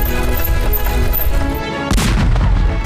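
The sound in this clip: Artillery and gunfire boom through a live-fire shooting demonstration by artillery school students in Yan'an: a dense, continuous rumble of shots, then a sharper, louder blast near the end.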